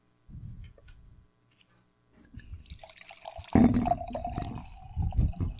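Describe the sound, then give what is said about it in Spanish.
Wine pouring into a glass: a few soft low knocks come first, then a steady liquid gurgle with a ringing tone that swells and carries on to the end. “¿Quieres una copita de vino? Mira lo que tengo por aquí. Qué oportuno. Qué oportuno, ¿no? Déjame servirte una copa para que disfrutes del episodio.”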